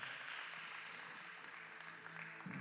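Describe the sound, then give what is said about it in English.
A church audience applauding, a faint, even wash of many hands clapping that continues steadily without a break. “Can you give God a big hand praise once again? Amen.”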